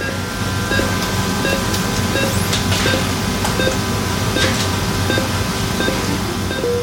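A hospital infusion pump gives a regular series of short, mid-pitched beeps at a steady pace over a constant noisy background hum.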